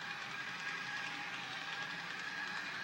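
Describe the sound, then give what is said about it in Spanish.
A toy train running, giving a steady, even whirring rattle with a faint fast clatter that holds at the same loudness throughout, with no voices. “Estoy con mi tren. ¿Te gusta? Lo acabo de comprar.”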